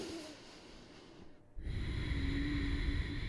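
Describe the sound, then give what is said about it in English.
Breathing during a strength and relaxation yoga practice, with the exhale made through a constricted throat for a soft, steady H hiss. A quieter breath comes first, then a brief lull, then the fuller breathy exhale. “as you exhale all the way, you could constrict the back of your throat until you hear that subtle sound of H when you're exhaling.”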